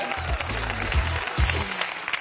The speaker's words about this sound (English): Give him a big round of applause.